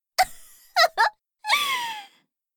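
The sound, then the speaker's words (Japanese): A person crying: a few short sobbing gasps, then a longer wavering wail that trails off, with no speech. “だから泣かないの。”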